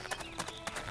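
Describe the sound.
Footsteps of a video game character walking forward: about four soft, evenly spaced steps, faint and alone.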